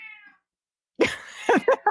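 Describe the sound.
A cat gives one short, high, tonal meow, then silence, then a person starts talking.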